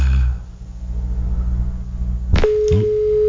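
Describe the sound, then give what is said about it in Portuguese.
A steady telephone line tone from a call that failed cuts in about two-thirds of the way through and holds to the end, over a low rumbling background. “É, a ligação não deu certo, mas a gente vai retomar aqui para ela rezar conosco, louvando e agradecendo,”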